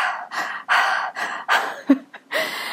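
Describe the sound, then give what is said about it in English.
A voice imitates children's deep breathing with a series of breathy, airy inhales and exhales in uneven puffs and a short snort-like breath near the end. “My children witness me breathing because I have to do it around them if they're up. And then I will hear them walking around the house playing and they're going like this.”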